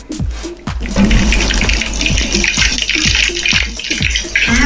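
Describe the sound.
Ice clinks against a glass as a drink on the rocks is stirred. Many quick, rhythmic knocks repeat over a steady swirling, watery wash, loud and with no voices.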